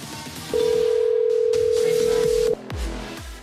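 A telephone ringing tone on a call: one steady, mid-pitched electronic tone lasting about two seconds, standing clearly above low background noise, followed by a few dull thuds.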